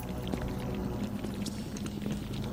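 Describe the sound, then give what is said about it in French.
A liquid, gloopy film sound effect for a figure rising out of a hospital floor, a murky wet churning that stays steady and fairly quiet throughout. “Ouais, c'est liquide un peu, là. Ouais, là, on voit ça, c'était quand il sortait du plancher.”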